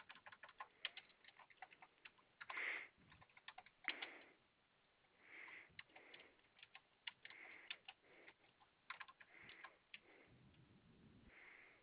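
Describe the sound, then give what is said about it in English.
Quiet typing on a computer keyboard, with many light keystrokes in irregular bursts and short pauses and no talk. “Just give me 1 second. Let me continue to type this in.”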